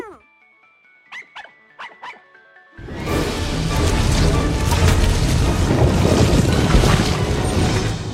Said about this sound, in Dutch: We hebben hier zwaar noodweer